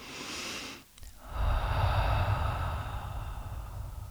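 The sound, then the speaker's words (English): A deep breath pushed out through the mouth: a loud, breathy rush of air that lasts for several seconds. “So let's take a deep breath and make an effort to really breathe out through the mouth.”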